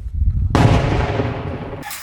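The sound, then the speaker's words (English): A blast from an American M119 light howitzer fired by Ukrainian artillery crews: one sharp, loud report with a dense burst of noise that decays over about a second, after a low rumble and before another sound starts. “Ukrainian fighters also learned how to use the American M119 light howitzer.”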